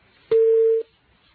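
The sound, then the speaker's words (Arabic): A telephone line tone after a call-in caller is cut off: one clean, steady, mid-pitched beep lasting about half a second, then quiet, with no voices. “اتصال انقطع”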